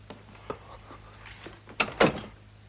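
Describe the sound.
A door closing: a few soft clicks and knocks, then a louder latching thud with a short rattle near the end.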